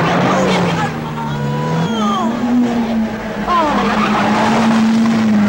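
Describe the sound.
A car driven fast with its tyres squealing, a loud, steady engine drone underneath and repeated high, sliding squeals of rubber on the road above it.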